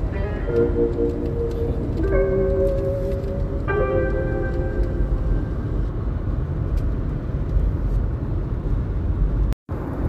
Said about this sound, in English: Excuse the noise. I'm driving.